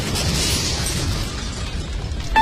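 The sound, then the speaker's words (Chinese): A crash of a seventh-floor balcony collapsing and falling: a dense, continuous rumbling roar of debris that holds steady throughout and ends in a sharper, louder burst. “阳台没了！ 哎，哎呦，这怎么阳台掉了？”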